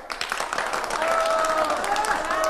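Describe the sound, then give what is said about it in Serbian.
Thunderous applause after a welcome speech at a cooperative museum opening: dense, continuous clapping from a crowd, loud and steady throughout. “Buran aplauz!”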